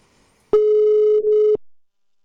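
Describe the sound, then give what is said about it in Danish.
A single telephone ring tone, about one second long, plays while a call is placed to ring someone back. It is a steady, loud, buzzy mid-pitched tone with a brief dip near its end, followed by silence. “Så vi lige prøver at ringe til hende igen.”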